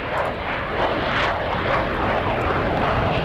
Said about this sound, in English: the Red Arrows are going to be flying over Northern Ireland later on. At about 6 o'clock, possibly, they're going to be flying to